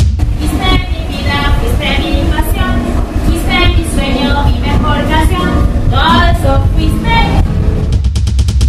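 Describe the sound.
A subway train runs through Carlos Gardel station on Line B in Buenos Aires, making a loud, steady rumble throughout with voices heard over the noise.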